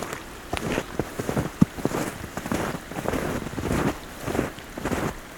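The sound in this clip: Water gurgles and sloshes in a snowy setting, a soft run of irregular splashy bursts and clicks over a steady breathy, wind-like hiss.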